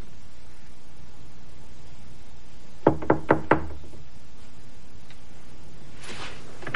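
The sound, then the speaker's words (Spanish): Knocking on a door in a 2020 thriller film scene: four quick, evenly spaced raps, sharp and fairly loud against a quiet background hiss, then near silence. “Golpea una puerta.”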